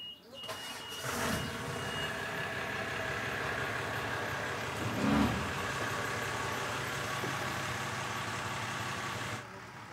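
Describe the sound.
Boat engine running as a boat is moved into another berth in a harbour, a steady low mechanical drone held at an even level for about nine seconds, with a couple of brief louder bumps.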